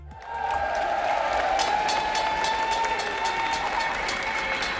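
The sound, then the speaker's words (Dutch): Applause at a nurses' protest at a hospital: a dense, steady clatter of many hands clapping with crowd noise and a sustained tone running through it, and no clear talk. “Applaus, spandoeken.”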